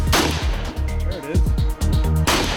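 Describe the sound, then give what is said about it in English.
An M8 rifle is fired from the shoulder, giving two loud, sharp cracks, one near the start and one near the end, with brief talk between them. “So what's it like to fire the M8? Really push that gun into your shoulder.”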